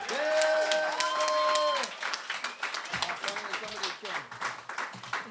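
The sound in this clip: Audience applause welcomes a contestant to a quiz game. The clapping is dense and loud for the first two seconds, then thins into patchier, quieter claps.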